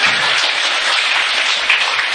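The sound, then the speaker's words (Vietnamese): Listeners at a Buddhist dharma talk clap their hands in a loud, continuous wash of applause with no breaks. “Chịu, vỗ tay đi chứ.”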